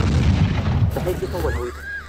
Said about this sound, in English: You can hear the bombs going off.